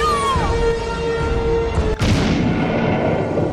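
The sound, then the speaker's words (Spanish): A single gunshot booms out midway as two men struggle beside a grave in incessant rain, a sharp crack with a rumbling tail, heard over sustained musical tones. “Al final, se oyó un nuevo disparo.”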